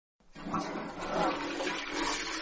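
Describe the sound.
A toilet flushes: after a brief silence, a loud surge of rushing, gurgling water rises quickly and holds as a steady, full roar to the end.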